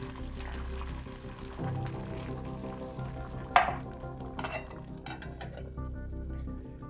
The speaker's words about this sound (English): So make my egg.